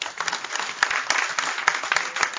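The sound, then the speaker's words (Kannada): An audience claps its hands in thanks to a doctor: many sharp, irregular hand claps run together into a steady patter of moderate loudness, with no voices over them. “ನಾವು ಚಪ್ಪಾಳೆ ತಟ್ಟಿದ್ದು ಅವರಿಗಲ್ಲ, ಅವರ ಒಳಗೆ ಆ ಸ್ವಾಮಿಗೆ ತಟ್ಟಿದವು ಖಚಿತವಾಗಿ ತಲುಪುತ್ತವೆ.”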